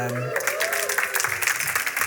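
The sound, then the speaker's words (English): Audience applause mixed with cheering, a dense, loud wash of clapping that follows a brief voice at the very start and continues steadily to the end. “I assume you're cheering for her.”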